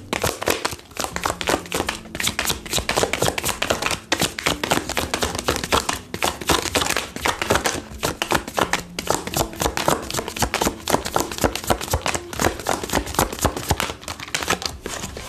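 Tarot cards being shuffled and drawn, a dense, continuous run of quick papery riffles and light taps at a steady, busy rhythm throughout.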